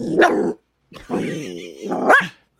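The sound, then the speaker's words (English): A female dog barks and growls at a photo: a few loud, gruff barks and yaps with throaty growling between them. “Is she barking at Boomer's photo? I think she is. Aww, your puppy.”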